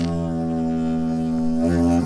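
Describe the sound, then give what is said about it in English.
A didgeridoo sounds one hearty toot, a deep, loud buzzing drone rich in overtones that holds level before its tone shifts near the end. “A didgeridoo is played.”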